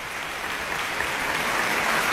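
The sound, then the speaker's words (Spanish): Sustained applause from a concert hall audience after a symphony orchestra's performance of a piano concerto, a dense, steady patter of clapping that holds at an even loudness throughout, with no voices standing out. “que recibe y reparte los aplausos del público reunido el día de hoy en la sala de conciertos”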